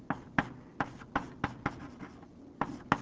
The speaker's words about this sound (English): now I'm going to write it in, well, all right, I'll write it like this.